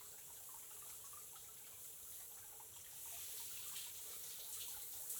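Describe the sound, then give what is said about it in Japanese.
Running water rinses a body clean, a faint steady hiss of flowing water that swells a little partway through, with no talk. “なんで恍惚とした顔で洗い流してんの？”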